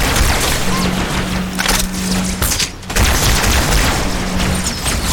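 Loud gunfire in a video game, a sustained barrage of rapid booming shots that briefly drops away near the middle before resuming at full strength, with a low steady tone running beneath.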